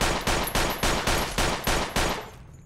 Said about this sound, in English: What new weapon are you using now? This is the Beretta M92FS.